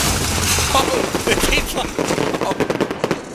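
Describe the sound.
Video game gunfire rattles in rapid, dense bursts. The sharp cracks run loud and nearly continuous before breaking into choppier volleys near the end.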